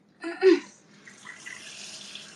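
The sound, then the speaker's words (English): Tap water running as a dog's water bowl is refilled and cleaned: a short splashing burst, then a soft, steady trickle that continues faintly to the end. “Sorry, I'm going to refill and clean my dog's water bowl.”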